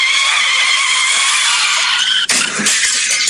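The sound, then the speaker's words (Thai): Car tires screech as a car skids out of control on an expressway curve, a loud continuous squeal lasting about two seconds before it breaks abruptly into a rougher, noisier sound. “เส้นเนี้ยใครๆก็ใช้ความเร็วสูงแถมมันยังเป็นโค้งทางเชื่อมจุดเบี่ยงเลนอีกประมาทเพียงเล็กน้อยควบคุมรถไม่ทันเข้าโค้ง”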